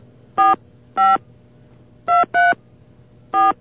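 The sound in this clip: Touch-tone beeps as a telephone number is dialed: five short, clear tones spaced unevenly, with two close together in the middle, over a low steady hum.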